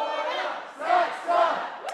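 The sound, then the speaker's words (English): A crowd of freshmen cheers and yells at a Georgetown University orientation, a loud, sustained roar that swells twice into bigger shouts. “A rousing welcome for freshmen.”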